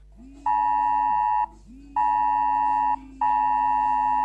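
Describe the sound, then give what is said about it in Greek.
A phone's emergency weather alert sounds for dangerous weather: three loud, steady electronic tones, each about a second long, separated by short gaps, with a lower hum under each tone. “Μα χτυπάει συνεχώ! Προειδοποίηση για επικίνδυνα καιρικά φαινόμενα στην περιοχή σα.”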